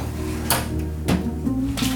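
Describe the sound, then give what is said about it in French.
Cups and a small coffee pot being handled, with a few light knocks and clinks spread across a couple of seconds over a faint background hum. “Alors c'est des tasses.”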